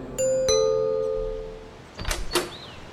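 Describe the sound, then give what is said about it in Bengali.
A two-note electronic doorbell chime rings at the door of a residential building, a bright ding then a lower dong, both ringing on and decaying slowly before softer noises follow. “সেখানে গিয়ে দরজায় bell বাজাতে একজন বৃদ্ধ পরিচারক এসে দরজা খুলে দিল”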